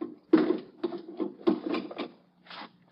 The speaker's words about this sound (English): Just let me slip these bolts.